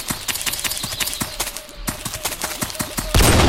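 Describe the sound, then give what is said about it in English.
Shotgun firing in a video game, with many rapid, sharp clicks and taps leading up to a sudden, loud, sustained blast that fills the end. “This is the shotgun.”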